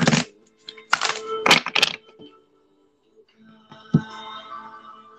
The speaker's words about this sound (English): When y'all hear the sound of those cards, that means I am preparing for you.